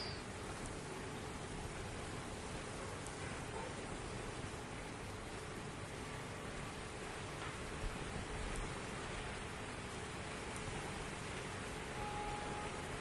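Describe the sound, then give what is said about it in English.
Rain falls as a steady, even hiss that runs unbroken for the whole stretch, with no voices and no separate drops standing out. “The rains have heard me.”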